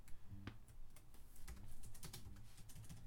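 Typing on a computer keyboard, with many quick, irregular key clicks in a steady run, faint and without voices.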